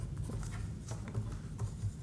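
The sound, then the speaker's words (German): Faint scratching of writing something down by hand: soft, continuous strokes with a few slightly sharper accents, quiet throughout. “Ja komm, ich schreibe Kelle Schüppchen auf.”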